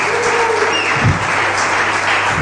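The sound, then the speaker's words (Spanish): A church audience claps in praise: dense, steady applause from many hands that holds at an even, loud level throughout. “Give the Lord a hand of praise. Dar un aplauso al Señor.”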